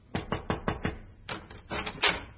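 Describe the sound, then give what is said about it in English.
Knocking on a dressing room door: a quick run of five sharp raps, then a few heavier, broader knocks after a short pause, with no voices. “one night I was in my dressing room, changing off the performance, when there came a knock at my door.”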